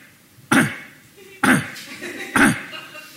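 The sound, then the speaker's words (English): A voice imitates a small rescue Pomeranian dog with a crushed trachea coughing: three short, harsh, honking coughs, evenly spaced about a second apart, each loud and sudden before fading. “She opens the door, and the dog is coughing. It goes like,”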